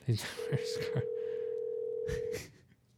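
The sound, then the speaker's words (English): A telephone call is placed, with one long, steady ringing tone running under people talking before the voices carry on alone. “we're going to dial him up here. We're going to keep you guys on. Let's see if he answers.”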